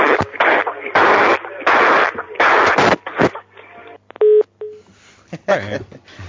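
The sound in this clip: A telephone number is dialed with short touch-tone beeps, which come right after a stretch of loud talking and are followed by quieter sound.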